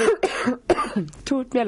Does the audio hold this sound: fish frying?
no